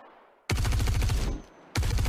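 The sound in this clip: Video game weapon gunfire processed with a multiband compressor: rapid automatic bursts of loud, heavy, punchy shots. A long burst is followed by a brief gap and then a second burst starting at the end.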